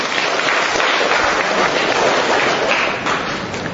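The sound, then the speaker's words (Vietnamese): Sustained applause from an audience welcoming a man invited up on stage during a sermon, a dense wash of clapping that holds steady and eases slightly toward the end. “Rồi cho một tràng tay hoan hô người anh em này.”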